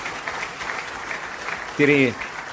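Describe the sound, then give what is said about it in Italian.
Audience applause at a political rally breaks out as a dense, steady patter of clapping, while a man's voice speaks over the crowd and rises briefly near the end. “Ecco, fategli un applauso”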